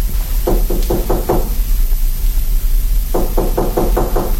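Knocking on a door in a duke's palace: two bursts of quick, evenly spaced knocks, five in the first and six in the second, separated by a pause over a steady low background hum.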